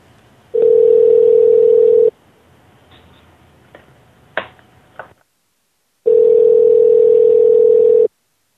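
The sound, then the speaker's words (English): Telephone dial tone heard while a call is being placed. A steady, loud, unbroken hum sounds for about one and a half seconds, then a few faint clicks and taps, a short pause, and a second long stretch of the same tone. “We're going to call him right back right now.”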